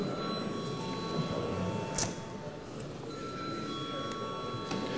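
An electric voting bell rings in a parliament chamber before a vote on a bill, a steady, buzzing ring that holds evenly at moderate level through the whole stretch with no pause.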